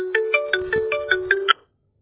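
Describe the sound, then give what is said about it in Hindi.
A mobile phone ringtone plays a bright melodic pattern of eight short, evenly spaced notes over a steady tone, loud and alone, then cuts off abruptly. “Veere phone आ गया।”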